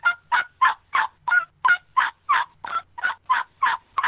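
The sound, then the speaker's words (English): Plain hen yelps from a turkey call, played flat with no added emotion, in a long, steady series of evenly spaced raspy notes that stay at a similar pitch and loudness throughout. “the best way I can describe that is plain hen yelp to a turkey, and you don't put any realism to it, it'll work. Sounds like this.”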